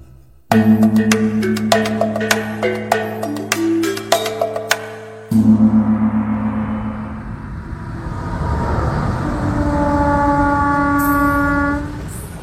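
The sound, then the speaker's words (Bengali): Train running along an eastern frontier railway line, opening with a loud, rhythmic metallic clatter of wheels, then settling into a steady heavy rumble as drawn-out horn-like tones sound over it. “পূর্ব সীমান্ত রেলপথ রেলগাড়ি চলছে”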